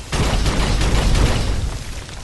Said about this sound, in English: I just had to blow him up to get them unstuck.